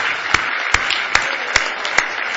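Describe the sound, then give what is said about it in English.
Applause from an audience at a church service, a steady wash of hand claps with five sharp, evenly spaced claps standing out in a regular rhythm. “Oh, give him one more big hand clap of praise if you love him tonight.”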